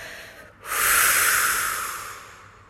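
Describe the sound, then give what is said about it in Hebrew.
A single long, loud exhale during a children's mindfulness breathing exercise: a breathy, hissing rush of air that starts abruptly and then slowly fades, with no talking. “ניקח שאיפה ונדמיין את האור הנעים שנכנס פנימה וננשוף החוצה, ממש תשמיעו את הצליל של הנשיפה.”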